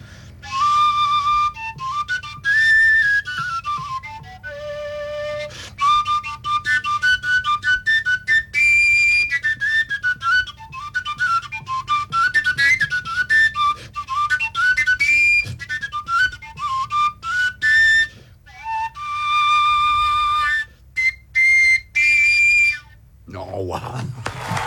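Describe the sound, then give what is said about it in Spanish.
A willow flute with no finger holes, played by breath alone, sounds a long run of clear, whistle-like notes that jump up and down in pitch, in sustained phrases broken by short pauses. “Flauta de sauce. Y es un instrumento que es una flauta, pero no tiene orificios. No, pues. Y entonces las distintas notas se hacen solo con la intensidad del aire y suena así,”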